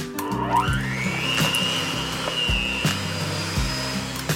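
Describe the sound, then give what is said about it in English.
Electric mixer beating softened butter and tahini in a deep mixing bowl, a steady, fairly loud whirring motor drone whose pitch climbs early on, with a few brief shifts in the low hum. “I'll start with some softened butter in a deep mixing bowl with about a cup of tahini and mix it up.”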